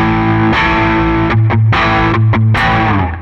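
Electric guitar played through an overdrive pedal modeled on a Klon Centaur with its gain turned up. A few loud, distorted chords are strummed in succession, each ringing with a thick, sustained, gritty tone.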